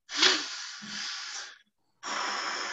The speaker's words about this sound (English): the calm response is a double inhale through the nose and a long, slow exhale.